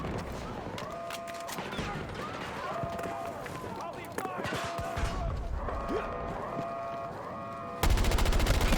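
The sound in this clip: Automatic gunfire sprays bullets in a video game, with many rapid shots, clatter and effects throughout. It ends in a louder, sharply pulsing burst as players talk over the action.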